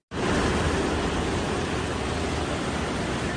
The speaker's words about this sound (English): That is the sound of water gushing into the New York City subway system last night in Manhattan.